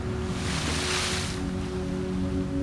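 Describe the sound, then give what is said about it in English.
A ship under sail at sea, headed southeast of Dunedin toward the Bounty and Antipodes Islands: a continuous rushing wash of waves that swells early and then settles, over a steady low hum. “we're on the Avoi, headed to the Bounty and Antipodes Islands, a full 3 days sailing southeast of Dunedin”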